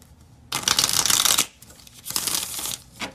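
Mini tarot cards being shuffled in a few crisp, papery bursts of riffling, each separated by brief pauses, with no voices.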